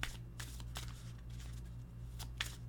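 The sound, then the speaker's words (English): Playing cards are snap-shuffled, a few quiet, crisp riffling bursts with short gaps between them, faint overall. “I think we'll do one more of those snap shuffles and then do the pull.”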